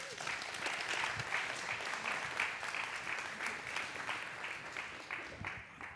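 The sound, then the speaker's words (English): Applause from a group for people being introduced: dense, continuous clapping from many hands, fairly loud and steady throughout, easing slightly near the end. “You guys give all them a hand.”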